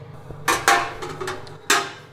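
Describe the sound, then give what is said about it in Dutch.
An oven door is opened on an oven preheated to about 185–190 degrees to put in a tart, giving a few sharp metallic clanks and knocks with a faint creak, fairly loud and without talk. “Ik heb de oven al net op voorverwarmen gezet. Ongeveer 185, 190 graden. Dus ik doe hem open.”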